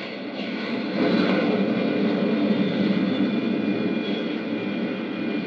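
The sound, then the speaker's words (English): A spacecraft's braking rockets fire during a moon landing, giving a loud, continuous roar with a thin steady whine on top, unchanging from start to finish. “Skillfully, Flash manipulates his craft's braking rockets. The soft pumice dust of the moon's surface is going to make the landing hazardous. Slowly, the ship settles down, tail first.”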